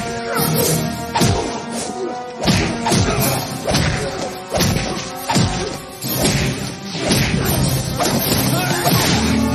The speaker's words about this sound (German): Jede Bewegung wird mit einem Windrauschen begleitet. Ich fand's absolut großartig.